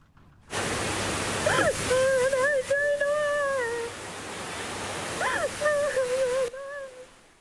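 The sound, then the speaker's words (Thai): Floodwater from higher ground rushes into Village No. 13, Ban Tha Sao, Muak Lek district, Saraburi, in a flash flood, a loud steady roaring wash that runs almost unbroken with voices talking over it. “น้ำป่าจากพื้นที่สูงเนี่ยไหลหลากเข้าท่วมหมู่ที่13บ้านท่าเสาอำเภอมวกเหล็กอย่างรวดเร็วนะครับ”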